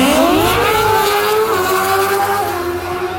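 Roar of racing motorcycles at a packed race event: a loud, continuous engine note that climbs in pitch over the first second and a half, then holds high and steady to the end.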